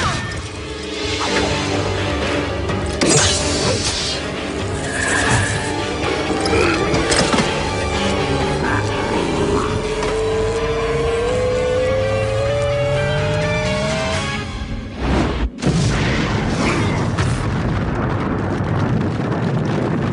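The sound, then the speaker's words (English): An emitter explodes in the Beast Wars cartoon: a dense, loud roar with mechanical whines that climb in pitch, a sharp crack near the end, then continued rumbling. “The emitter will explode and take you with it!”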